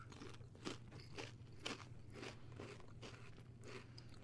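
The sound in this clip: Repeated crunching bites and chewing of a puffed, Parmesan-flavoured cheese snack, a steady series of quiet, crisp crackles.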